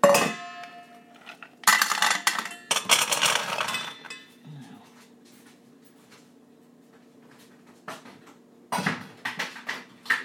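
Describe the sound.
Clinks and clatter of a dish being handled and set down, heard in a few separate bursts of hard, bright knocking with stretches of low steady hum between them.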